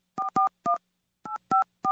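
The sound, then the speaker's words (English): Telephone keypad tones dial a number to China: six short, clean beeps in two groups of three, separated by a brief pause. No other sound is heard. “Well, in the name of democracy and good government, let's get on the phone. Let's call China.”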